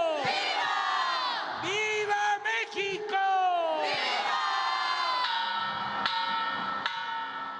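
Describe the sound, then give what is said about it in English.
A crowd shouts at the El Grito celebration in Mexico, massed voices yelling in long, loud, sustained cries. The calls rise and fall in overlapping waves of cheering. “All right, sound from El Grito last year. That's happening again this weekend.”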